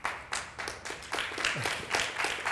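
Audience applause, a dense, steady patter of many hands clapping at once, fairly faint and even throughout with slight swells.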